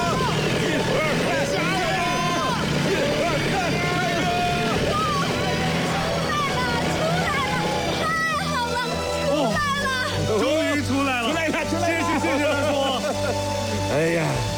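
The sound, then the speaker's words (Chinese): A car engine hums and revs as people push the car, stuck in freezing cold. The low drone runs steadily underneath loud, overlapping voices that call out with effort throughout. “我再去加点油门。 嗯， 我们都到后面推，再试一次。”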